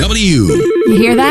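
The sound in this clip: A legacy business phone system rings with a loud electronic warbling trill that repeats in a fast, pulsing pattern, while a voice talks over it.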